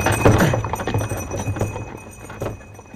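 Hooves of a horse pulling a carriage clip-clop in a steady run of many quick, uneven knocks over a rough background rumble, fairly loud throughout.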